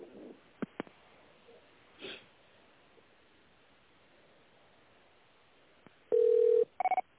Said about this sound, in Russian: Пожалуйста, наберите добавочный номер.